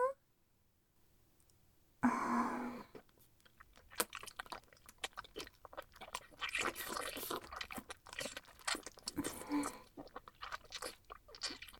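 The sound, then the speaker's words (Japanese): Wet ASMR licking sounds, many soft smacks, clicks and slurps in an uneven rhythm, fairly faint, starting after a moment of near silence. “はーい、じゃあきれいになめなめするよ。”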